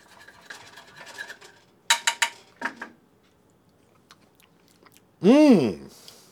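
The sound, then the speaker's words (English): Chewing and crunchy bites of a homemade dish during a taste test, with a cluster of sharp cutlery-like clicks and scrapes, followed by a loud, appreciative hummed "mm". “Let's see. Let's taste test it, shall we?”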